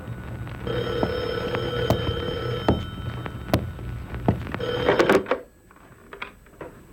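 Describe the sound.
A telephone rings late at night with a steady electronic trill that repeats for about five seconds and then breaks off. A few faint clicks follow in the quiet.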